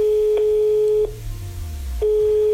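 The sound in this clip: A telephone line tone plays as a call is placed: two bursts of a steady, even mid-pitched tone separated by about a second of quiet, with a low rumble underneath.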